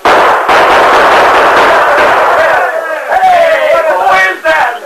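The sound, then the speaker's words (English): Gunfire from a western radio drama shootout: loud, dense volleys of shots blur together, then give way to men shouting over the last bursts. “All right, Tonto, open fire. Chase them back into the gulch.”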